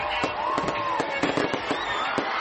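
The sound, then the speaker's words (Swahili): Fireworks burst over a city at midnight to welcome the New Year of 2016, a loud, rapid run of many sharp bangs and crackles that overlap almost continuously to the end. “Ni milio ya fataki, ishara ya makaribisho yaliyonoga ya mwaka 2016 na kuupa mkono wa kwaheri mwaka 2015.”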